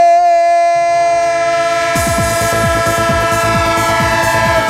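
Train sound effect: a sustained horn-like tone sounds first, and after about two seconds a loud rolling rumble with repeated clattering sweeps joins it and carries on to the end. No voices.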